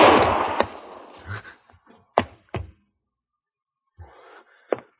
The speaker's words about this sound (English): He's pulling his gun!